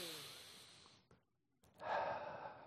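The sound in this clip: A person breathing slowly during a guided meditation: a long, soft, airy breath that fades out, a brief silence, then a fuller, stronger breath. It is quiet and heard alone.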